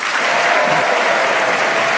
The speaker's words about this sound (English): Would you please welcome all four of them?